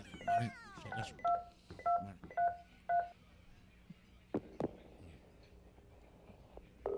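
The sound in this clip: Telephone number dialed on a touch-tone keypad: a quick series of about five clear, steady DTMF beeps, each short and evenly spaced, followed by a few faint clicks and a low line hum, with no voices.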